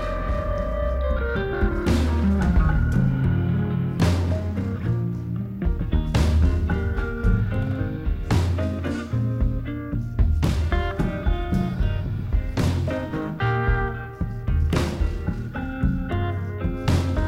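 A recorded song with a distinctive, punchy drum sound: heavy drum hits land in a steady beat about every two seconds over a full, dense band mix that stays loud throughout.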